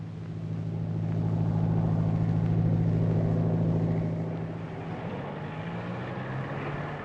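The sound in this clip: An airplane in flight near New York, shortly before landing, gives a steady low engine drone with a strong humming tone that swells louder over the first few seconds, then eases and holds, with no voices.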